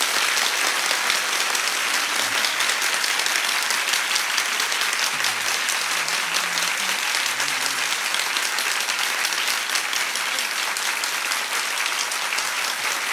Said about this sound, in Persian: حسین دست تو بیار بالا، یه کف خوشگلم بزن ببینم.